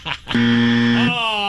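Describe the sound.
A game show's wrong-answer buzzer sounds during a call-in quiz: a single flat, loud, low buzz with a rich harmonic tone, held for about three-quarters of a second, with voices talking just before and after it.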